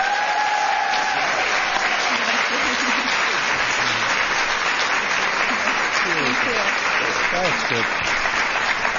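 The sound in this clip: Audience applause welcoming President Donald J. Trump at an event honoring military moms: loud, sustained clapping throughout, with cheers and voices rising over it.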